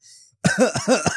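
A person coughing over a table, a rapid run of several harsh, throaty hacks after a faint breath.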